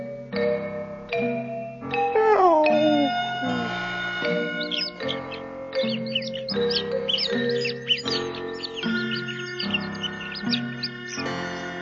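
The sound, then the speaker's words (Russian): Sparrows chirping on branches in a courtyard at morning, many short, high, quick chirps scattered over a steady musical background that runs throughout. “Двор ожил, зачирикали на ветках воробьи.”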